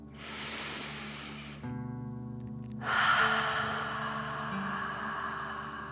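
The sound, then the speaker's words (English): A deep breath in and then out during a relaxation exercise: a soft, airy inhale of about a second and a half, a short pause, then a longer, fuller exhale. Both are breathy rushes over a faint steady tonal background. “Deep breath. In and out.”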